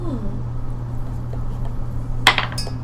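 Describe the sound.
Dice rolled on a table land with a brief burst of bright clattering clicks, two quick clusters near the end, over a steady low hum.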